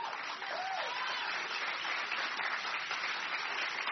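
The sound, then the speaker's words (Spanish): Applause for the Lord in church: a steady, dull-toned roar of many hands clapping together, continuous and even in level for the full length. “Dale aplauso al Señor.”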